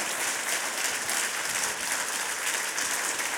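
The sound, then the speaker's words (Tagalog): A church audience claps in worship, a soft but dense, continuous patter of many hands with no clear breaks. “Palakpakan natin ang Panginoon sa kanyang presensya. Ipikit ninyo yung mga mata. Ipikit nyo. Palakpakan nyo siya.”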